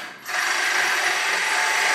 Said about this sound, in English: He's cutting the hole through that steel tube now.